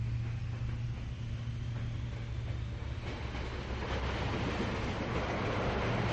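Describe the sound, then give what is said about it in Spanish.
A train pulls away after its doors close, giving a steady low rumble with rail clatter and hiss that holds evenly throughout, with no voices. “Las puertas se cerraron tras ella y con un empujón el tren se puso en marcha.”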